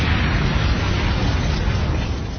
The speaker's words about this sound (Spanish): situó la mina en las cadenas del tanque, y tanque y zapador explotaron a la vez.